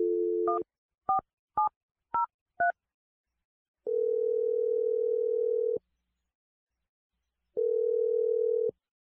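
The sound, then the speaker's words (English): Telephone dialing a number: five short, crisp keypad tones in quick succession, then two long, steady tones separated by a pause, heard alone with no voices. “We're going to dial his number.”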